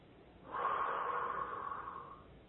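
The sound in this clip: A single deep breath during a relaxation exercise: a soft, airy rush of air lasting about two seconds. It is faint and stands alone, with no talk.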